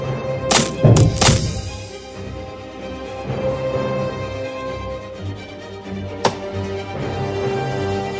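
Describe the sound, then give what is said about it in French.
Wooden objects being chopped into small pieces in a palace: a few sharp, heavy blows in quick succession, then a single lone strike later over a low, steady background hum. “Que l'on coupe plutôt en petits morceaux tout ce qui est en bois dans ce palais.”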